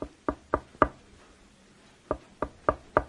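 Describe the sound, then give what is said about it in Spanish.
Knocking on a door: two bursts of several sharp, evenly spaced raps separated by a pause of over a second, loud and alone with no voices. “Por aquí ya van y tocan otra vez en puerta.”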